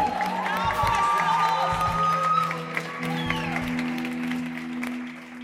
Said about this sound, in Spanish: If you believe, give a big hand to the Lord. Déselo fuerte. Strongly. Con grito de alegría y de júbilo.